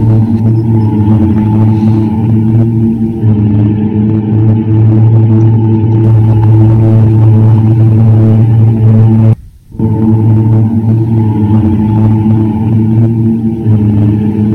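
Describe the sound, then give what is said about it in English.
A vehicle drones through the empty streets of Wuhan at 2 a.m. during the coronavirus lockdown. The low, humming rumble is loud and continuous and cuts out briefly near the end. “It just sounds ominous, and for our audio listeners, it was exactly that. It's of some vehicle going up and down the street as they're entirely empty.”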